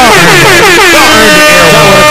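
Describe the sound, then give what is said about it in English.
An air horn sound effect blares loudly and continuously for about two seconds, a bright, buzzy tone rich in stacked harmonics with a slight wavering in pitch and no pauses. “y'all earned the air horn, man.”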